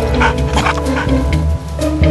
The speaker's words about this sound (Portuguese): Nessa hora, ele nem late, só faz um barulhinho para o treinador.